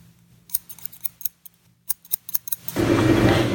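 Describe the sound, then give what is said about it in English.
Scissors snip through very long, waist-length hair during a haircut that takes about a foot off. Many quick, crisp snips come in irregular bursts, then a steady broad hiss takes over at the end. “Okay, now for the haircut.”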